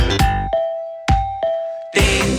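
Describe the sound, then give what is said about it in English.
A doorbell ding-dong chime rings as a few bright struck tones. A steady, sustained pitch carries between the strikes, with no voices. “da klingelt's an der Tür”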